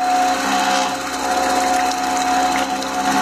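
A cream separator runs on fresh cow's milk in a village home, giving a steady, dense mechanical whir with a constant high tonal hum and no breaks.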